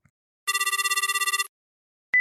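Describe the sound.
A telephone rings with one electronic trilling burst of rapid, even pulses on a steady high tone. After a silence, a brief tone begins right at the end.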